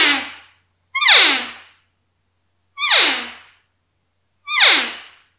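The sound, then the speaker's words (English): A mouth-blown game call with a Mylar reed, its pitch set by lip pressure, gives four short calls. Each starts high and slides down in a raspy falling whine, with silent gaps between them. “directing nice, soft, consistent air pressure over the reed as I blow it with my lips on it. And I'm not sliding the call in and out at all to get the varying tones.”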